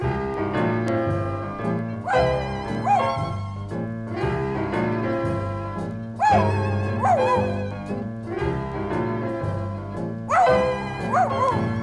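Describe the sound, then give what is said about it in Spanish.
A voice imitates a little dog whimpering with a toothache, giving short yelping, sliding cries repeated several times over a children's song with steady accompaniment. “Al perrito le duele una muela.”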